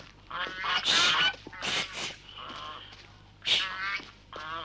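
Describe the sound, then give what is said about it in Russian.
Geese honking as a flock of white geese is chased: several loud, harsh, nasal honks come in overlapping bursts, with quieter calls between them. “гоняет стаю белых гусей”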